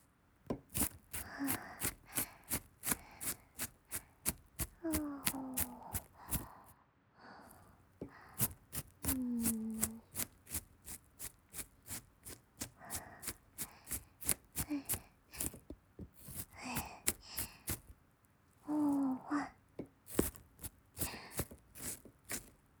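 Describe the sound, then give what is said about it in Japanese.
Knife chopping an onion that was chilled in the refrigerator: many quick, crisp taps in an even rhythm, grouped into runs separated by brief pauses, all quiet and close with no talking. “玉ねぎ切ってるけど目に染みないでしょ。これ冷蔵庫で冷やしてたからね。”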